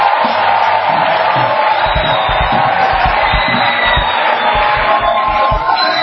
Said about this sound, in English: Why don't you give the Lord a mighty clap of praise?